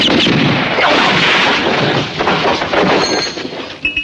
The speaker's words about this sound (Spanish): Y la séptima bala correrá a cuenta del Ivan Cliff, ya que Bill se queda sin munición.